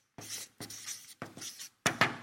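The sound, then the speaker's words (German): Writing on a board: four quick scratchy strokes in a row, each a short hissing scrape separated by brief gaps, with the last stroke the loudest. “ich glaube, wir schreiben das so.”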